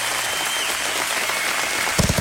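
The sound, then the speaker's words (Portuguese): Audience applause for sponsors at a live prize-draw event, a continuous hiss of clapping lasting about two seconds, with a few louder low thumps at the very end. “Palmas, palmas para os nossos patrocinadores, nossos parceiros.”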